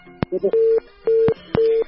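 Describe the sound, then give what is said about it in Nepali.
Telephone disconnect tone after a call is cut off: three steady mid-pitched beeps in an even rhythm, each marked by sharp clicks, with a short warbling blip before the first. “उहाँको phone कटेको छ”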